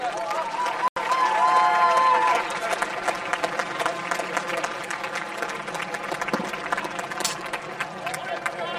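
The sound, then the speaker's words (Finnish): Audience applause for the 2025 Superfuksi winners at a Finnish May Day event, a sustained, dense patter of clapping and crowd noise with a voice briefly heard over it. “Äärimmäisen suuret onnittelut vuoden 2025 Superfukseille. Annetaan vielä raikuvat aplodit kaikille.”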